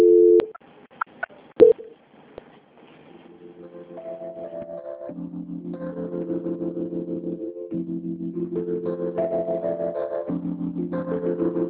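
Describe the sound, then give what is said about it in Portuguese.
Telephone line tones during a call transfer: a few clicks and short beeps, then a long, steady run of electronic tones stepping back and forth between pitches. “A senhora não desliga não, que a ligação vai ficar muda o momento, tá bom?”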